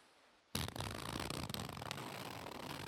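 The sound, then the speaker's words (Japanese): After a moment of near silence, the cheap, lightweight zipper of a kigurumi costume is pulled, making a quiet, sustained raspy scrape with small clicking ticks. “今日持ってきたのは、私がコミケで着ていた着ぐるみのチャックです。”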